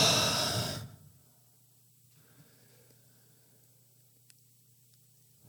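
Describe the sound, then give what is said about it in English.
A deep exhale during a breathing exercise, a soft breathy rush lasting under a second, followed by near silence over a faint steady low hum. “Expand your heart. Exhale.”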